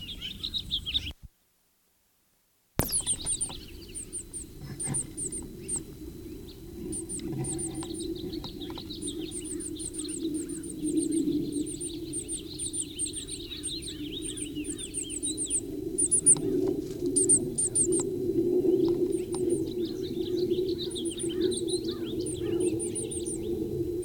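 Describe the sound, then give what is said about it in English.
A bird calls in a pasture with a long series of short, high, thin chirps repeating at a steady pace over a low, constant rumble. “Still a Blomquist pasture bird.”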